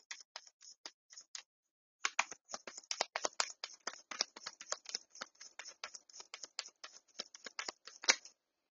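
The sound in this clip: Tarot cards are shuffled and drawn: many quick, crisp paper flicks and taps in a brisk, uneven rhythm, with a short pause after the first flurry before a longer, denser run of shuffling.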